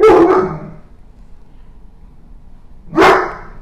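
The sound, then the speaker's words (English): A dog barking playfully at people in a studio: two loud, sharp barks about three seconds apart, with low background noise between them. “yep, you hear my dog in the background barking at people in the studio”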